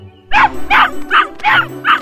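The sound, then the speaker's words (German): Puppies yap excitedly in five high, bright yips, evenly and quickly spaced. The yips are loud and stand alone with no talk. “Die Welpen jedenfalls freuen sich.”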